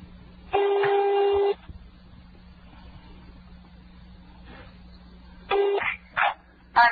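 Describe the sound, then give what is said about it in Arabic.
A ringing tone sounds on a landline call to Rafah: one steady tone about a second long, a long pause over faint low hum, then a few shorter tone bursts. “أي هذا قاعد يرن بس ما أدري بعد الصوت واضح عند المشاهدين ولا لا؟”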